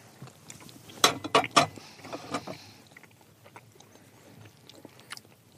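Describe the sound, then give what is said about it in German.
Biting and chewing a small piece of plain waffle with a little cinnamon: three sharp, crunchy bursts in quick succession, then quieter, irregular chewing that fades away. “Ich nehme hier schon mal ein kleines Stückchen runter. Die sieht ganz neutral aus, da ist nichts drauf, aber wir gucken mal, wie sie schmeckt.”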